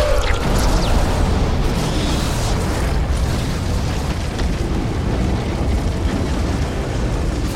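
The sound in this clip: An explosion blast sound effect: a loud, dense, rumbling roar with a crackling, gritty texture that continues steadily without pause from start to finish.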